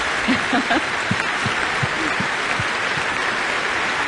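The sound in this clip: Audience applause welcoming a visiting composer from Canada at a percussion event in the UK, steady clapping throughout with a few low murmurs beneath it.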